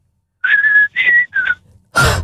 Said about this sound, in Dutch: Kun jij ook fluiten? Heel goed. Ja? Doe eens een stukje.